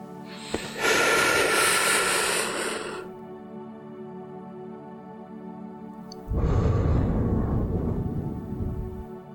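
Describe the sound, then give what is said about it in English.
A deep breath drawn in during a guided meditation: a loud, rushing, airy breath lasting over two seconds, then after a pause a second long breath, both over a steady, faint tonal drone. “let us all take a nice deep breath in”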